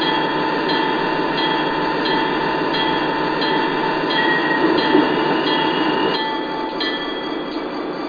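A freight train rolling toward a stop at a red signal: steady loud wheel-and-rail rumble with high, thin squealing tones running throughout, easing slightly quieter near the end, with no voices.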